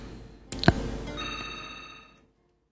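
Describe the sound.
Telephone ringing for an incoming caller on a call-in line: a sharp click, then a single short ring burst that fades away into silence.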